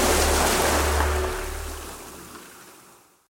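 Sea waves wash onto a beach in a loud, steady rush of surf with no voices. The sound gradually fades away toward the end.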